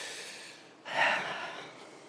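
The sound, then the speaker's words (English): A person pauses to catch a breath, a single sharp intake of air that rises out of a soft background hiss and then fades. It is fairly faint, with no speech. “Sometimes I have to stop to breathe.”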